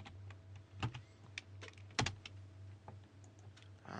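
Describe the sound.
Computer keyboard typing at a command prompt: a few scattered keystrokes, soft clicks with two sharper taps, over a steady low hum.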